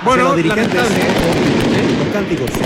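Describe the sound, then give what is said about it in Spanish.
Firecrackers go off at a football stadium during a match, sharp bangs crackling beneath a steady crowd roar and talk. “siguen escuchando, siguen cayendo bombas de estruendo acá en el Esterroa”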